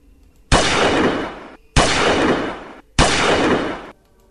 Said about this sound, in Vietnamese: Sau 3 tiếng súng vang lên